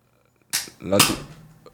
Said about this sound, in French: Là, t'as tiré dans le micro, donc t'as dû tirer complètement de travers.